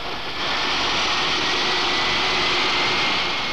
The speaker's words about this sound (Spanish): Ellos son los culpables de una de las escenas más conocidas de esta película, la de un avión entrando por una ventana del aeropuerto.